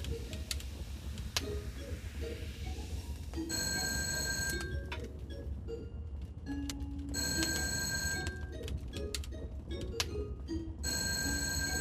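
An electric telephone bell rings in three bursts of bright, trilling tone separated by pauses. The ringing sits over a quiet, steady background hum, and no one speaks.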